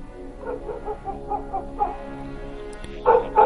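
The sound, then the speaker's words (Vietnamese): A pack of dogs barking, including a black dog: many short, yelping barks and whimpers in quick succession, fairly faint at first, with louder barks near the end. “tiếng chó sủa lại vang lên”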